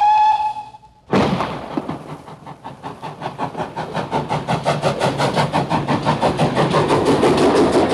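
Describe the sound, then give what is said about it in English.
A passenger train departs a station on the rails with a steady clickety-clack that quickens and grows louder, after a brief steady tonal sound. “And they climbed aboard the train.”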